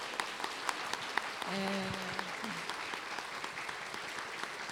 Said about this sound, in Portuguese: eu queria uma salva de palmas para os nossos convidados